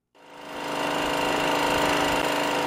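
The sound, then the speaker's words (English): A loud standby generator in Yaoundé, Cameroon, running during a power outage, rises from silence into a steady, dense mechanical roar that holds without a break. “This loud noise from a standby generator is unusual in Cameroon's capital, Yaoundé. But for the past 2 weeks, many locals have become familiar with it.”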